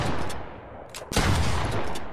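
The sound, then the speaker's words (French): Gunfire as fighters with their last ammunition open fire on furious grizzly bears in a forest: a dense, roaring wash of shots and blasts with one sharp, loud crack near the middle, continuous and noisy throughout. “Ouvrons le feu et faisons saigner ces hideuses brutes.”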